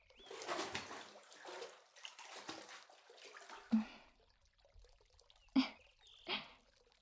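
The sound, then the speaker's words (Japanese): Hot water is poured over someone's head in a bath, a soft splashing gush that runs for several seconds, then gives way to a few quieter, separate splashes and drips. “湯船は後でゆっくり二人で浸かるとして、まずは頭にお湯をかけるよ。”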